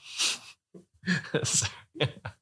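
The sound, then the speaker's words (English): A loud breathy exhale blown straight into a microphone during a bourbon-club whiskey tasting: one broad rushing burst, then several shorter breathy, voiced puffs. “that was really loud breathing. Hopefully we can edit this.”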